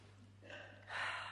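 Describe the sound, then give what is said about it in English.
A church audience breathes in deeply together, the warm, muggy air carrying a soft, breathy whoosh that swells once and then rises more strongly a moment later. “I want you to take a breath of this warm, muggy air. Are we ready?”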